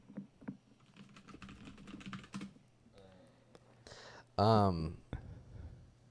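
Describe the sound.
Computer keyboard typing comes as a few quick, light key clicks mixed with people talking, and a louder voiced burst sits near the end.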